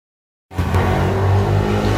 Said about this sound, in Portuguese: Vai uma moto carregando droga na moto. Exatamente. Acelerando igual um imbecil.